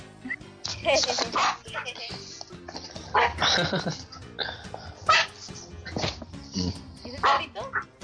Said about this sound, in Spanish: ¿Es el perrito? Sí, es mi perro.